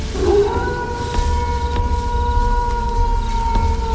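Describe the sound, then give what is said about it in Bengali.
A wolf howling at the moon: a sustained, steady tonal wail with clear harmonics, held for several seconds over a low, rumbling background. “এখন সম্পূর্ণ একটা পূর্ণ বয়স্ক নেকড়েতে পরিণত সে, চাঁদটাকে দেখেই মুখ উঁচু করে রক্ত জল করা এক হুঙ্কার ছাড়ল প্রাণীটা।”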